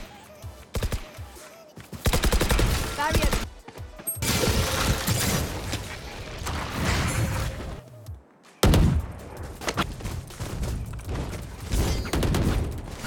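Gunfire from a tactical shooter video game crackles through many rapid shots in bursts and quick single taps aimed at a target, loud throughout with brief pauses between volleys.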